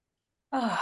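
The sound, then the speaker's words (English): One deep, sighing breath taken by a person at the start of a talk at a support-group meeting. It begins abruptly after silence and is soft, airy and breathy. “And I'd like to just start with just a couple breaths.”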